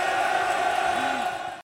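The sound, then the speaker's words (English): Football crowd at a Millwall home match against Sunderland roars in approval after a defender heads the ball clear. A brief, loud surge of cheering and whoops holds steady, then cuts off abruptly. “Crowd love it.”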